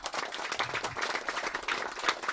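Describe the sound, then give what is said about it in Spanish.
Audience at a panel discussion applauding an introduced speaker, a brief burst of many hands clapping in a steady, busy patter at moderate level. “Un aplauso, por favor.”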